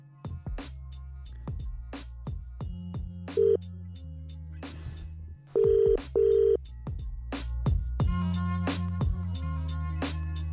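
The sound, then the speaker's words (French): Telephone ringback tones as a call is placed to someone in London: a few short, steady ringing bursts sound over a rhythmic musical backing with percussive hits. “Je vais l'appeler tout de suite en direct dans l'émission.”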